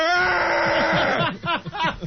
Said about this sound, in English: Oh, I recognize that hideous scream. Those are growing pain screams.